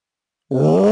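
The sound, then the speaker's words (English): A voice imitates a yawning deer with huge fangs: a single drawn-out, groaning vocal sound that starts abruptly halfway through and holds steady and loud to the end, with a low, strained, slightly rising tone. “because that's the sound deer makes”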